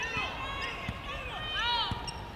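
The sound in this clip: Basketball dribbled during a women's game, a few sharp, hollow bounces on the court spaced unevenly beneath a commentator's steady play-by-play talk.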